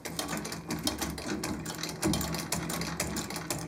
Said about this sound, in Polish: To jest szewska. Wymagana, konieczna. A co to jest? Typowo łaciarka. Że ona szyje we wszystkie strony świata.